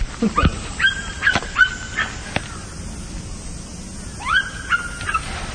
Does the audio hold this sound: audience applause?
no